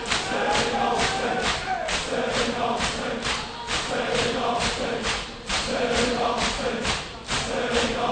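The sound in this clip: Mourners beat their chests in a Shia mourning ritual: many heavy, evenly spaced thumps in a steady rhythm, laid under the loud voices of a chanting crowd.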